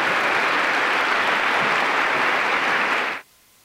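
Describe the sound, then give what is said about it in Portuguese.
An audience at a world Spiritist congress in Lisbon applauds as musicians are introduced. The clapping is loud and sustained for about three seconds, then cuts off abruptly into near silence. “Palmas.”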